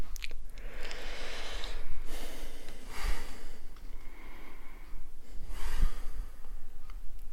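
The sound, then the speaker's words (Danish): A man takes a few slow, deep breaths in and out during a guided relaxation exercise. The soft, airy rushes of breath rise and fall over a constant low hum. “Skal vi så ikke bare prøve og øh, tage et par dybe indåndinger”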